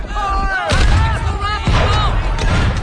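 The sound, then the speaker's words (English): Heavy gunfire from Confederate soldiers firing down into a crater: two loud, booming shots about a second apart, with shouting voices around them. “Confederates fire down into the crater.”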